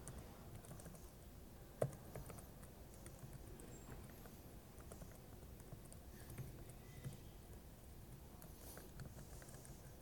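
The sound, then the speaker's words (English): Fingers type steadily on a computer keyboard, a soft, continuous patter of key presses that stays faint throughout, with one slightly sharper tap near the start. “And assuming I type this all correctly, which is a big assumption”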